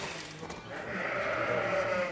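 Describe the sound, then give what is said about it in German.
A sheep bleats in a pen among a newly shorn flock: one drawn-out, wavering bleat that lasts most of two seconds. “rennt dann in den Pferch zu seiner Herde. Manche schauen sich um, blöken, suchen.”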